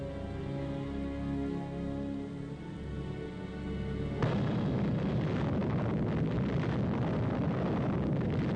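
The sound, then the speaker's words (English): A sudden, loud blast roar from an atomic bomb test detonation begins partway through and holds steady to the end, replacing an earlier droning tonal hum as a dense, rumbling wash of noise. “The tremendous detonation, felt 260 miles away, shakes the earth under the soldiers, and the blast fills the air with flying dust.”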